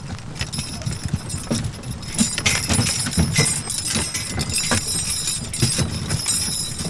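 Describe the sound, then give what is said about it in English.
Hooves clip-clop as horses pull a wagon on a ride near Laramie, Wyoming. The clatter is steady, loud and uneven, over a constant low rumble. “here I am, and we're just in a real wagon, and you get that real feel.”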